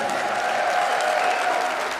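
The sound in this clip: A festival audience breaks into loud, dense applause to greet a Latin-pop singer coming on stage. The crowd clapping holds a constant, full roar, with faint crowd noise mixed in.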